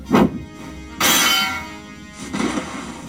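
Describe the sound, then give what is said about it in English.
Metallic clangs as a sword deflects an attack: a few bright ringing strikes, the middle one longer and more sustained, with no talk over them. “Volley deflected Hilda's attack with his sword.”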